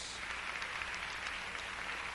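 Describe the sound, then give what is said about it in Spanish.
Congregation applauding during a church service, a faint but even patter of many hands clapping without pause. “Dele un aplauso al Rey.”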